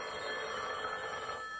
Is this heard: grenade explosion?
no

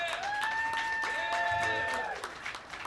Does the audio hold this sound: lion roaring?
no

